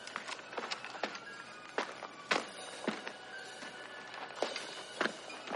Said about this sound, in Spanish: Después, Gutowski se pone de pie y cautelosamente corre por donde ha pasado Kelly hasta llegar a él.